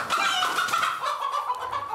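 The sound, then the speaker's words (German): Farm hens cluck in a steady, busy stream of nasal, mid-pitched calls lasting about two seconds, loud and with no voices. “Die Hähner machen eine Gaude, wo die überall hinlegen.”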